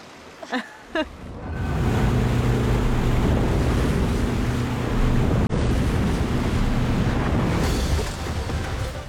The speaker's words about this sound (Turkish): Idaho'nun kalbinde dönüşü olmayan nehir şiddetleniyor. Salbon'daki engin sular beygir gücünü gözler önüne seriyor.